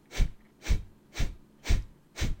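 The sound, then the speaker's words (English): Kapalabhati yoga breathing in a yoga class: five sharp, forceful nasal exhales, evenly spaced at roughly two per second, each a short breathy burst with quiet pauses between. “Take a deep breath in. Begin again, Kapalabhati.”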